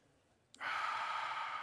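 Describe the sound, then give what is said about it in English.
Deep breath drawn in: after a quiet moment, a sudden, soft, airy rush of breath starts and holds steady to the end, faint and without speech. “Now listen, you're going to take a deep breath in. Hold it. Take another one in. Another one in.”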